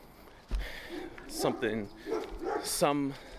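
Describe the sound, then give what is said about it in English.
Dogs bark outdoors during a walk: a few short, sharp barks and yips in bursts over low background noise. “Oh, look, at all the dogs are out.”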